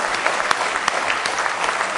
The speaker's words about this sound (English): Why don't you give the Lord a real good hand clap of praise? He's worthy tonight.